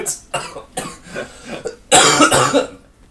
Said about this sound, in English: that is how you clear a bad throat.